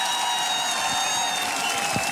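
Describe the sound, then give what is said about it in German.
Audience applause at a German music show after a performance, a steady, even clapping that holds the same level for the whole clip with no voices standing out. “Das ist nochmal euer Applaus.”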